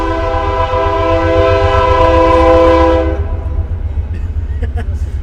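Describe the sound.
An Amtrak train passes, blaring a loud, sustained multi-tone horn for about three seconds over a heavy low rumble. The horn then stops while the rumble and rail clatter carry on.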